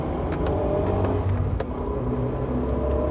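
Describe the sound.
Steady rumble and whir of a car driving north on a road in Sweden, an even, unbroken drone of engine and road noise with no voices.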